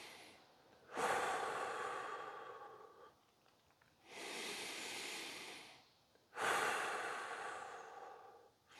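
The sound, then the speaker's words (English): Circular breathing in a guided breathing exercise, with inhale and exhale flowing together without stopping. Long, airy breaths swell and fade in a slow, steady rhythm, soft and close, with no talking. “just stay with the breath. Make it circular. This is all the secret, to make it circular. Don't stop on the inhale nor the exhale.”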